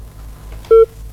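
A single short, loud telephone keypad tone sounds as a call is placed to a village head, over a low steady background hum.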